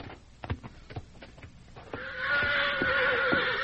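A horse neighs; it has been running hard and its coat is covered in dried foam. A few short knocks come first, then a loud, drawn-out whinny holds steady to the end.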